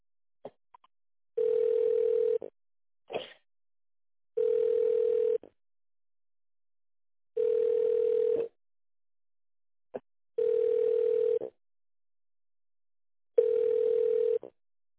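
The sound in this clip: A telephone ringing tone while a caller waits on hold for an operator after an automated menu: five long, even, single-pitched tones, each about a second long and spaced about three seconds apart, fairly quiet, with a few faint clicks between them.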